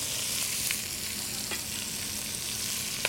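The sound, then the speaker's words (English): Vegetables cook down in bacon fat over medium heat for Cajun red beans and rice, giving a steady, even sizzle with a few faint crackles and pops. “In the meantime, I want to cook these vegetables down in the bacon fat until they're soft and slightly translucent.”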